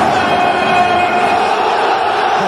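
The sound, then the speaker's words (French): The stadium crowd at the Vélodrome stands to welcome Steve Mandanda with a loud, sustained roar of cheering that holds steady and unbroken throughout. “Ce n'est pas pour rien d'ailleurs que le Vélodrome lui a réservé un très bel hommage alors qu'il venait symboliquement donner le coup d'envoi en octobre dernier. Ah, il a les yeux qui brillent. Waouh ! Le Vélodrome est debout pour accueillir Steve Mandanda.”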